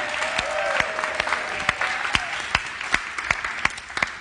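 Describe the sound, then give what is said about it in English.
Applause from a church audience welcoming a new staff member: steady, dense clapping with several sharper individual claps standing out, sustained and even throughout. “So everybody, please join me in welcoming Allie.”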